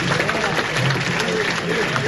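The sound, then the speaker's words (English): Audience applauding registered voters at a town hall meeting: a steady, dense patter of many hands clapping throughout, with a voice faintly heard beneath. “Then he asks everybody to applaud for those people.”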